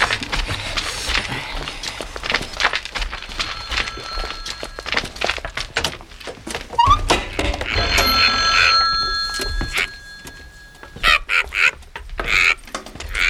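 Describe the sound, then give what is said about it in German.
A telephone rings for an incoming call in a caravan in a German detective radio play. Bright ringing tones arrive in a few bursts amid clattering, knocking noises and movement. “Das rote Lämpchen an unserem Wohnwagen leuchtet. Wir haben einen Anruf.”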